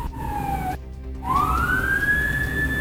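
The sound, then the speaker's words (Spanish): A police vehicle siren wails loudly as units arrive at an emergency on a closed highway. One steady tone dips and breaks off, then a new wail climbs in pitch over a constant low traffic rumble. “ahí vienen llegando los efectivos policiales con balizas, con sirenas, para que los dejen pasar, producto de la emergencia”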